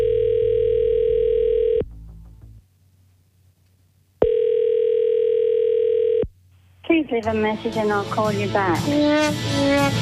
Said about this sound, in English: Let's make the call.